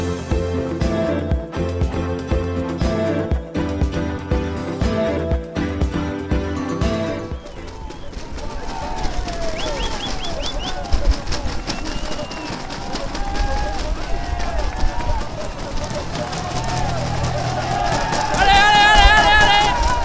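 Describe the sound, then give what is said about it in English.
A crowd roars at the summit finish of a 2021 Tour de France stage on the Col du Portet, with a dense wash of cheering and babble that follows a short music intro and swells louder toward the end. “we opened there with the noise from the summit at the finish of the day, the top of the Col du Portet.”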